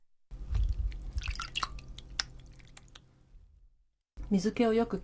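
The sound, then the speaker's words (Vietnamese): Water dripping off a piece of soft tofu held in the hand, a scattered run of small, faint drips and wet clicks, followed after a brief pause by a person speaking. “Trước khi đặt vào đĩa thì bạn hãy đặt đậu phụ lên tay để nước chảy bớt ra.”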